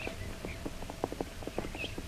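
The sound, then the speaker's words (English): Horse hooves clip-clop as riders travel northward: many crisp, even hoofbeats in a steady walking rhythm at moderate level, with no voices. “Jungle Jim and Shanghai Lil are riding northward into a trap set for them by the Maharaja of Ebor and the Silent One.”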